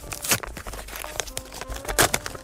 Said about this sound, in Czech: Mám tady další obálky s indiciema, tak jdeme na ně.